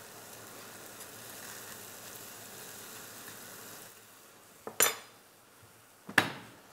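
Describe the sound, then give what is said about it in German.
Bread sizzles faintly and steadily as it is turned and toasted in a pan to go with onion soup. Two sharp metallic clanks of pan or utensil follow near the end. “Jetzt drehe ich das um und röste das so an”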